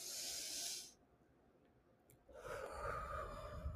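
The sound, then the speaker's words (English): A slow deep breath: a breathy rush of air, a short pause, then a second, longer and lower rush of air. No voices. “let's take a deep breath.”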